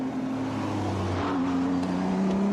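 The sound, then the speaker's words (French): A BMW race car, number 72, drives past during a circuit race, its engine a steady, loud droning tone that shifts pitch midway through the pass. “Team WRT aussi, qui est exceptionnellement là avec au volant actuellement de la BMW numéro 72, le local de l'étape, Arnold Robin”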